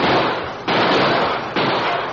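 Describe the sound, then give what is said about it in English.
Loud rifle volleys fired by men from wagons over the heads of a stampeding buffalo herd: a dense, crackling roar that surges anew twice in quick succession, with no voices. “All right, men, shoot over their heads to turn them away. All right, fire!”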